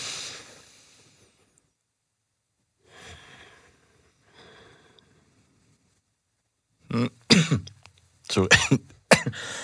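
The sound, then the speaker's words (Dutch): A small tickly cough breaks out as a cluster of sharp, rapid bursts near the end. Quieter breathy sounds come before it. “Sorry. Een kleine kriebelhoest.”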